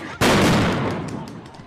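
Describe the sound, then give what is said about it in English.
A single loud bang from police munitions (flashbangs, tear gas or pepper balls) fired at a street protest outside a courthouse amid fires. It bursts abruptly and trails off in a long, rumbling decay. “Law enforcement's using a variety of munitions, including tear gas, some flashbangs, and also we saw some pepper balls.”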